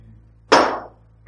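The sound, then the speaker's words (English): A toy ball on a little rod is dropped and shoots straight up: one sharp, bright smack with a quickly fading ring, followed a moment later by a much fainter tap. “Now, actually, they have a little rod through it so you can hold it and drop it, and it will shoot straight up.”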